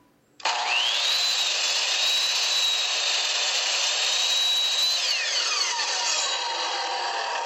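A power saw whines at a construction job site where a trim carpenter works. It starts abruptly and holds a steady high tone, then the pitch sweeps downward as the blade spins down.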